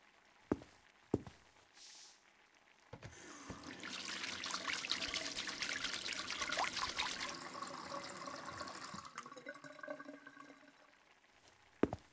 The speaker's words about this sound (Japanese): まず、手を洗ってもらえますか？